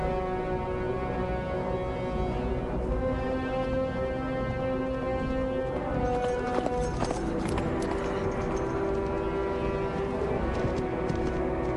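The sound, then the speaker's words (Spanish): Horse galloping across scrub-covered plains in a film scene: a white horse's hoofbeats run continuously under sustained low musical tones, with a few sharper hoof strikes midway. “Ya de día Arwen galopa por llanuras cubiertas de matorrales.”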